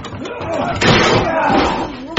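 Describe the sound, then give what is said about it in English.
Heavy thuds of a shed door being broken down: two loud impacts, one near the middle and one at the very end, with voices heard under the noise. “We're in the shed! Break the door down!”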